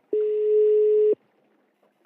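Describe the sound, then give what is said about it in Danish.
A telephone rings while a call is placed: a single steady mid-pitched tone that holds for about one second, then near silence. “Så, nu ringer vi lige til Johan.”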